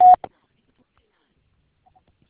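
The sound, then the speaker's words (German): A Vodafone mailbox voicemail gives a single short, steady beep tone, followed by a faint click and then near silence. “Bitte sprechen Sie Ihre Nachricht nach dem Tonsignal.”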